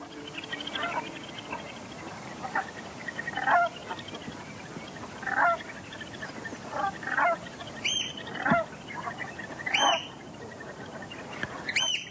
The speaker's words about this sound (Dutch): stuurde ons ook een opname van de rotgans in de slufter op Texel.